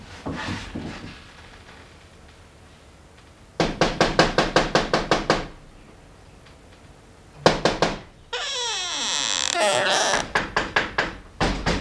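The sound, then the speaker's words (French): Knocking on a window: several quick, sharp rapping bursts in a steady rhythm, separated by quieter gaps. “Je suis près de la fenêtre. Je frappe à la fenêtre.”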